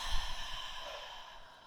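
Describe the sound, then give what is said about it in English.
A deep breath is slowly exhaled during a guided breathing exercise. The soft, breathy rush lasts under two seconds and gradually fades, quiet and alone with no talk. “Another deep breath in. And letting it go.”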